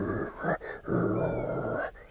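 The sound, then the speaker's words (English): A voice imitates an animal's low growling and heavy breathing: a few rasping, throaty growled breaths, the longest drawn out in the middle, moderately loud and with no other sound. “I could hear it breathing and making like a growling noise, going”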